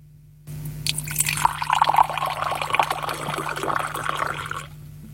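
Tea pours into a glass in one steady, splashing stream that starts abruptly, runs for about four seconds and then stops, over a faint low hum.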